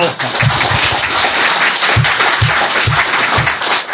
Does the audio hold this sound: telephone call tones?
no